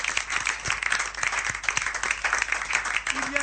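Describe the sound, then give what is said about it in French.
A crowd at a religious gathering claps and cheers loudly for the Lord. Dense, continuous applause carries steadily throughout, and voices mix in with it. “On acclame très fort le Seigneur.”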